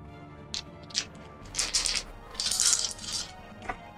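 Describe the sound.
Dice rolling on a table during a tabletop role-playing game: a string of bright, clattering rattles and clicks in short bursts, some brief and some longer, with no voices.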